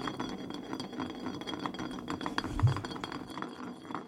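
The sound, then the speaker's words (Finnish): A glass bottle spins on a surface during a game of spin the bottle, giving a steady rattling rumble with faint glassy clinks and one slightly stronger knock a little past halfway. “Mutta hei, nyt voisi olla se hetki, että pyöritetään pulloa. Yes. Ja yes. Nyt pistetään pullo pyörimään.”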